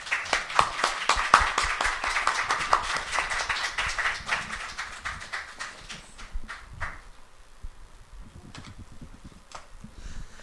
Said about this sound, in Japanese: 一応最後の、朝の礼拝となりますので、拍手でお迎えしていただきたいと思います。